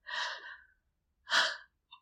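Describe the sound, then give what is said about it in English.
Soft, breathy exhalations: two airy, sighing breaths about a second apart, the first longer than the second, followed by a faint brief trace of breath at the end. “I hear my own breath.”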